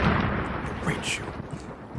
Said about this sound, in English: Drop a bomb on them.